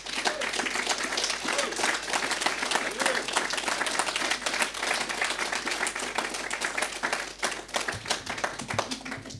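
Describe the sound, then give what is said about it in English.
An audience applauds to welcome a guest at a live evening talk event, many hands clapping in a dense, steady patter that stays loud throughout. “So, ladies and gentlemen, put your hands together, please, and welcome our guest tonight, Bev Bevan.”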